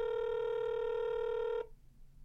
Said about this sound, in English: Hopefully he has voicemail. It seems to be a lot of rings.